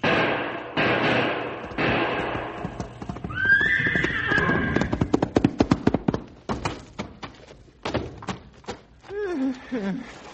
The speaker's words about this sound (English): The wounded man and horse make a desperate effort to protect themselves as the beast turns and charges at full speed.